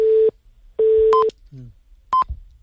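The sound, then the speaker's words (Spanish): Telephone busy tone after a dropped call: two long, low, steady beeps, then short higher-pitched tones, with faint clicks between them. “Se, nos ha cortado la, llamada.”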